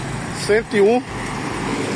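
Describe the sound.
Steady rush-hour road noise of slow traffic on the BR-101 highway, a continuous hum with a brief voice over it.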